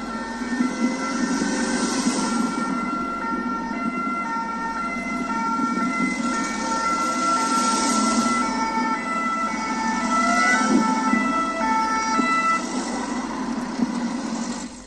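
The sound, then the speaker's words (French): Sirens wailing steadily, a loud layered tone that swells every few seconds and carries on without pause, with no voices. “Rassurez-vous, les sirènes que vous entendez, ce n'est pas une urgence sur Bambaïba”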